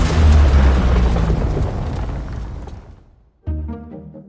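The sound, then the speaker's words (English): A trailer-style explosion sound effect: a massive, rumbling boom that slowly decays over about three seconds, cuts to near silence, then a sharp second hit with a ringing, tonal tail. “This would be a planet exploding or a building collapsing.”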